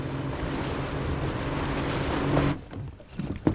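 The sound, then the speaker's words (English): A boat heads out toward deep water on a whale research trip, with a loud, steady roar of rushing water and wind over a low hum. The roar cuts off abruptly, leaving quieter knocks and a short bump. “The boat heads out to deep water.”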